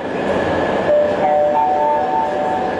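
A metro train rides between stations: a steady rumble with rail noise and faint whining tones, running unbroken throughout.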